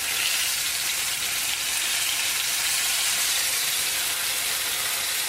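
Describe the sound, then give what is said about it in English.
Barley tofu sizzles in a frying pan: a steady, loud frying hiss that keeps up without pause through the whole clip. “this is looking pretty good on one side, so I'm gonna do a flip.”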